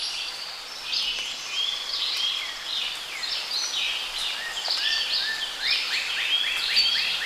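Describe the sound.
Birds singing in a forest: many high chirps and rapid trills overlapping in a steady, fairly soft chorus, with no voices.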